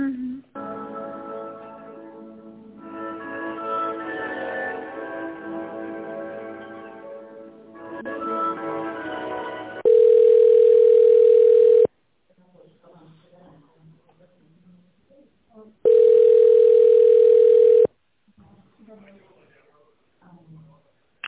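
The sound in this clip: Telephone ringback tone while a call is transferred to an extension: two long, steady beeps of about two seconds each with a quiet pause between them, after a stretch of talk.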